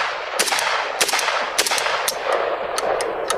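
Rifle gunfire in a video game comes as many sharp, loud shots in short bursts of two or three, spread over a steady hiss of background noise.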